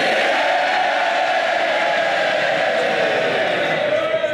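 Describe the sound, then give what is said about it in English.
Labour MPs in Parliament cheer loudly as a member is sworn in, a sustained, even roar of many voices that holds steady throughout. “Mr. Burnham was sworn in to loud cheers from his fellow Labour Members of Parliament.”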